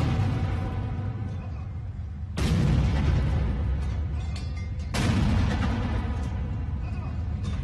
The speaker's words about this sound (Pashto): د حلف اوچتولو دستوري وروستو د پوځ یوې دستې دته د یویشتو توپونو سلامي ورکړه